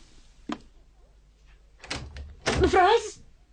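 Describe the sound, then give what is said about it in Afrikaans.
A bedroom door sounds: a sharp isolated click, then a clattering bump a little over a second later, followed by a louder rattle as a voice begins. “Kamer se deur is nooit toe nie. Nou skielik.”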